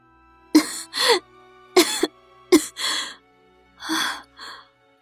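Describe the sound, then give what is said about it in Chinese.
A weak, sickly girl coughs in a run of short, hoarse, voiced bursts separated by pauses, each cough sharp at the start and trailing off, with no other talk. “香儿咳了一会儿，了无生机的靠在床柱上”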